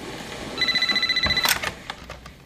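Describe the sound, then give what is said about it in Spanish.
A telephone beside a bed rings in one rapid, trilling electronic burst of about a second, then a few clunks and clicks follow as it goes quiet. “Un teléfono suena junto a la cama de Sue”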